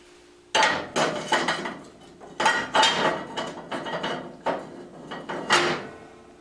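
Cast iron parts are taken out of a 1935 President model stove: many loud metallic clanks, knocks and scrapes follow one another in an uneven rhythm, with brief pauses between them.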